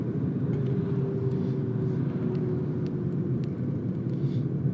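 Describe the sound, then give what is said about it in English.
Steady low engine and road rumble from a car driving through roundabouts, continuous and even from start to finish with no talking. “We're weaving through roundabouts now, and there's nowhere to pull up, so we just keep talking as I drive.”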